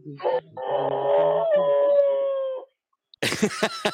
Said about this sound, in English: He's got a heck of a howl. I'm going to play it again.